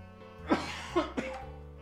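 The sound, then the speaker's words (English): A loud cough comes in three sharp bursts over a steady low hum, with no talk. “wow, that was loud. That was a weird fucking cough. Did you hear that? Digital cough.”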